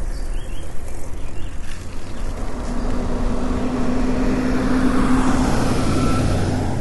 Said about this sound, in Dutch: Kijk, wat je net hoorde was een grote mobile home.